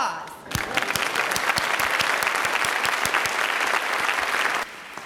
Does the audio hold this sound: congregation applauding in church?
yes